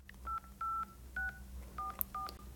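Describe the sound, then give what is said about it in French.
Telephone keypad dialing tones from a phone being used to call someone, a series of about seven short, evenly pitched electronic beeps with brief gaps between them, clear and steady over a low hum, no voices. “Donc là, maintenant, je tape Marguerite et son nom de famille, c'est ça?”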